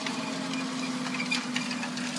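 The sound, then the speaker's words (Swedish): A tractor pulling a light disc harrow with a roller drones steadily past, a low, even engine hum with a persistent tone over broad rumbling noise, with no voices. “Och nu får vi vänta medan en traktor med ett lätt tallriksredskap med vält passerar här.”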